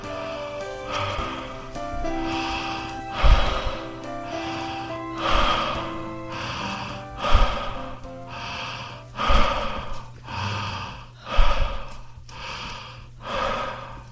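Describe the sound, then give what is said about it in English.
Continuous breathing in and out with no pause between breaths: many audible rushes of air in a steady, even rhythm, each swell flowing straight into the next, heard alone. “No pause between the in-breath and out-breath.”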